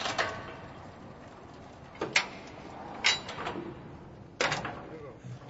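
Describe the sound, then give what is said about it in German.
The metal gate of a mine elevator cage opens at the bottom of the shaft of a salt mine. Four sharp, rattling clanks are spaced over several seconds against steady low background noise, all fairly faint. “Wir sind unten. Das Gitter öffnet sich.”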